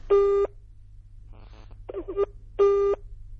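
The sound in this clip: Ringback tone of an unanswered phone call: two long, buzzy tones with quieter, scattered sounds between them.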